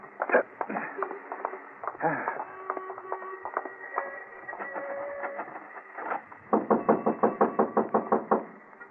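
Police knock on a door, with scattered thumps over a faint tonal background giving way to a quick, insistent run of many evenly spaced raps near the end.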